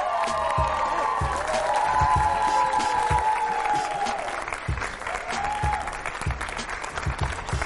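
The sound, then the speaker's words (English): A crowd cheers and applauds as a football player is brought onto a show with students. Loud, sustained clapping is mixed with whoops and shouts, then eases a little in the second half. “Make some noise for Jordan Richards.”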